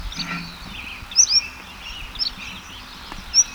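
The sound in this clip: A bird sings in a few short, high, thin chirps and whistled notes spread over several seconds, each rising briefly above a steady background hiss.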